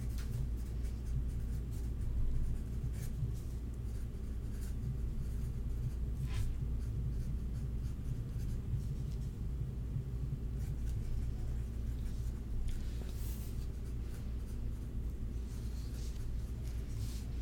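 A pen scratches on paper in soft, intermittent strokes, faint and scattered over a low, steady rumble.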